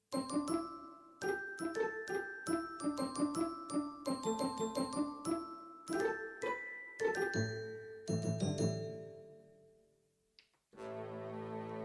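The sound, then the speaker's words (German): Pizzicato strings with glockenspiel play a bright, lilting melody: many plucked notes topped by ringing bell-like tones. The phrase ends on a long ringing decay, then a different sustained tone starts. “Pizzicato mit Glockenspiel.”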